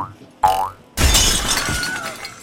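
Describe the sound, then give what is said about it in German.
Sound effect of a running jump: a short whooshing burst followed a moment later by a loud crashing, shattering impact that rings out and slowly fades. “Ich nehme Anlauf und springe.”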